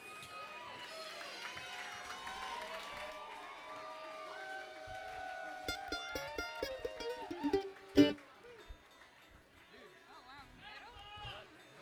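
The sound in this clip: A crowd gives faint cheers, whoops and chatter to welcome a six-string player from a bluegrass band to the stage. The noise swells into a brief burst of clapping and shouts near the end.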